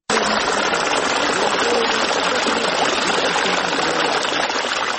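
Cold water gushes steadily from a two-inch pipe fed by a solar pump and tied to an old piece of wood, watering a newly planted orchard. The flow is a loud, continuous rushing hiss with no break.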